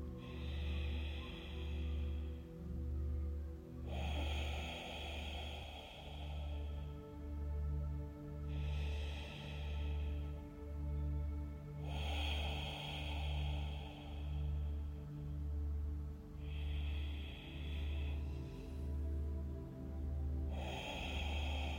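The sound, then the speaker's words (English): Slow, deep breaths in and out during a guided meditation come as several long, breathy swells spaced a few seconds apart, over a steady, pulsing low musical drone. “Breathe into it deeply. Let's take three deep breaths into your pelvic floor.”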